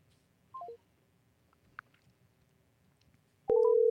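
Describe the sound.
Telephone tones as a caller rings a scam support line back: a brief, quick stepped burst of tones, a faint click, then a loud, steady line tone that starts near the end and holds.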